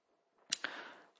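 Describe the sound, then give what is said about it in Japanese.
Two quick, faint clicks close together from pressing the search button on a computer, followed by a short soft tail. “同じようにコンピューターの前に座って安息日とタイプして、そして検索と押すと次のような結果が出てきます。”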